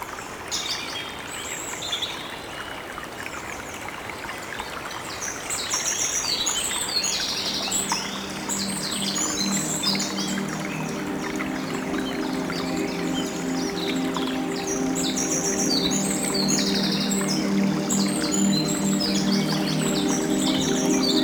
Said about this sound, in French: Ambiance du petit cours d'eau qui traverse la forêt de Granot.